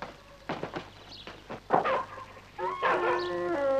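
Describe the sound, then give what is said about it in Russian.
A dog running up to greet men outside a house whimpers and yips, giving a few short yelps before a sustained, wavering whine at the end. “К ним подбегает собака. А, дружок.”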